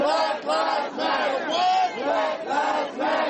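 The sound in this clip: A protest crowd at a Black Lives Matter march in the United States chants in unison, with loud shouted phrases repeating in a steady rhythm and short dips between them.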